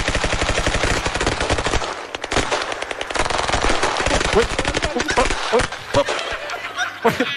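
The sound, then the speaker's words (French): Rapid gunfire as a team fires a grouped volley at a target: many sharp shots in fast, machine-gun-like bursts, briefly broken by a short gap before the shooting resumes. “Très joli tir groupé de l'équipe américaine de ICE”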